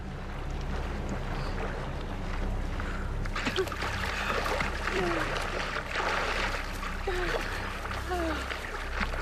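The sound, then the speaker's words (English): Legs thrashing and kicking through water as two people paddle backward on their backs, a continuous churning splash that becomes louder and fuller partway through. “Susan's legs thrash as she kicks through the water.”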